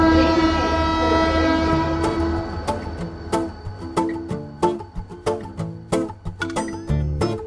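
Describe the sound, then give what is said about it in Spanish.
A historic train of the Spanish Railways Foundation arrives. Its horn sounds one long, sustained blast, then loud, regular clacks of wheels crossing rail joints take over in a rhythmic series. “el sonido inconfundible que cada domingo nos recibe, más o menos a esta hora, es el tren de la Fundación de los Ferrocarriles Españoles”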